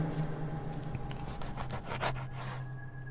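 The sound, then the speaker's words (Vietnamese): A knife is sharpened with a series of faint rasping, scraping strokes in an uneven rhythm. “Ông Thành không khống chế được nữa, cầm con dao, bắt đầu mài xoèn xoẹt xoèn xoẹt.”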